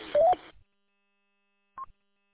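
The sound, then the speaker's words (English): A radio repeater tone sounds in two parts: a short, noisy burst carrying a stepped tone, then silence, then a single brief, fainter beep. “That's a different noise on this repeater. It's because the tone is different on the repeater now.”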